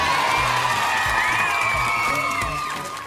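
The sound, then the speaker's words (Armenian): An audience applauds and cheers with whoops as a character named Titi appears on stage. The sound is loud and sustained, then eases toward the end. “Լսվում են ծափահարություններ և բեմին հայտնվում է Թիթին։”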